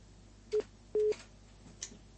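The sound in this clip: A busy tone on a phone line after a call drops: two beeps at the same steady, low-mid pitch, the second noticeably longer, over a faint constant line hiss.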